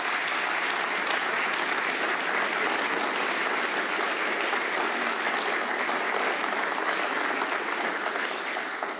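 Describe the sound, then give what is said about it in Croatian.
Long applause at a concert for an opera singer from the Croatian National Theatre in Zagreb and a young guitarist after Spanish folk songs, a dense, even clapping that holds steady and eases slightly at the very end. “Nagradimo ih još jednim velikim pljeskom, uistinu zasluženo.”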